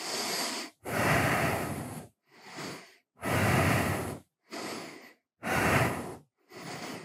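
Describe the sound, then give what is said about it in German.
Deep, deliberate breathing during a chest-opening arm stretch. Seven slow, airy breaths alternate between stronger and softer ones, each separated by a short pause, with no talking. “Atme auf jeden Fall bewusst weiter und tief weiter.”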